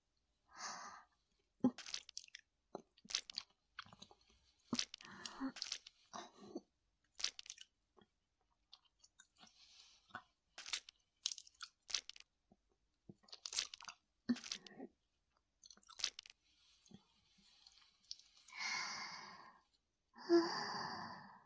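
Wet crunching and chewing as someone bites into and eats a human heart. Many irregular, faint bites and squelches are broken by short pauses, and the sequence closes with a few longer, breathy sighs.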